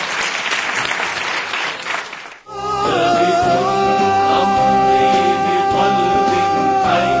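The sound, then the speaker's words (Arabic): An audience gives a performer a round of applause after an acting exercise. The dense clapping lasts about two seconds, cuts off, and music with a steady beat follows. “نور صلاحة وجادة التمثيل، نعطيها صفقة ثانية.”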